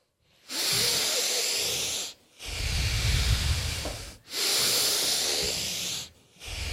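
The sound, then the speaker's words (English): Deep, forceful breaths during a breathwork session, filling the belly and then the chest before exhaling fully: three long, loud, hissing breaths, each about two seconds, with short quiet gaps between and a fourth beginning at the end. “Now the last five, making them the biggest breaths you possibly can. Really active, filling your belly all the way, then your chest, and exhaling it all out.”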